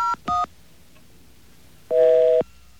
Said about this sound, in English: Let's see if we can get an identity on that by dialing 9901.